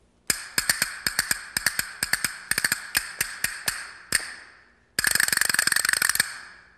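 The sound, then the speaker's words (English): Percussion ratchet noisemaker of the kind used in orchestras and for studio effects: a series of sharp, evenly spaced wooden clicks, then a fast, loud rattling burst as the ratchet spins quickly. “What's this one? This is called a ratchet. Now, this is used in symphonies or for effects in the studio.”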